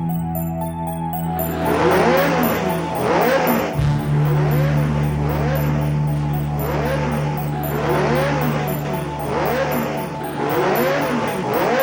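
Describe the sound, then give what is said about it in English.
Synthesized racing car engine from Namco's 1982 arcade game Pole Position, a buzzy whine rising in pitch again and again in regular cycles over a steady low drone. “Talk at least about Pole Position, because this was another hugely influential, hugely important game, this time in the racing genre.”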